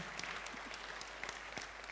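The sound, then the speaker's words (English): A conference audience claps for the paper committee: faint, brisk applause from many hands, a busy patter of claps throughout. “People want to stand up and have a wave and give them applause?”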